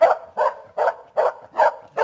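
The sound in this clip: A customs sniffer dog barks at antiques hidden in an officer's pocket: six loud, evenly spaced barks in quick succession, alone.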